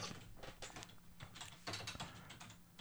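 Typing on a computer keyboard during a web search, with many soft, quick key clicks in irregular bursts, quiet and steady throughout, with no voices.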